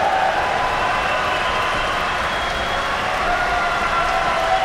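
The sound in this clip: Standing ovation in an opera hall after a soprano's debut as Lady Macbeth: a continuous, even wash of clapping from a large audience, sustained at moderate loudness throughout.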